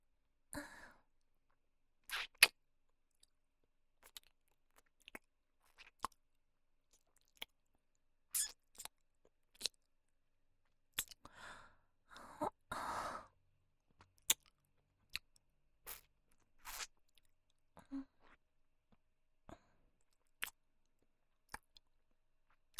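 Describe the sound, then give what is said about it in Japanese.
ASMR ear licking by tongue: many soft, wet clicks and smacks come at irregular intervals against near silence, with occasional breathy sighs between them. “こうやって直接耳を舌で舐めているとゾクゾクってなって心地よくなれるんですよ。”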